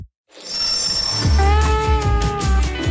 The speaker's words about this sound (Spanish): Tirados en Santander, esperando un tren.